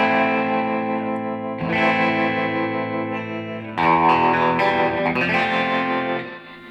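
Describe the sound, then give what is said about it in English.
Electric guitar runs in stereo through tremolo and reverb effects across two amps, one a 1971 Fender reverb unit. Sustained, shimmering chords are played loudly and change at a few points. The last chord fades out at the end. “Yeah, it sounds so great in stereo. Are you going through that Fender Tank too?”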